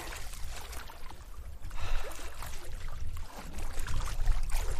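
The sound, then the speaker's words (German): Water splashes and sloshes as someone swims in the Mediterranean Sea after a bike tour. The churning is continuous and fairly soft, swelling louder about a third of the way in. “Was für ein geiles Gefühl nach der Tour jetzt einfach so ins Mittelmeer zu schwimmen.”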